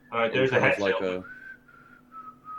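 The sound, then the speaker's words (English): A person whistles softly while strolling down a street, giving a few thin, sustained high notes right after a brief burst of voice. “I want to start like slowly strolling down the street, just whistling slightly.”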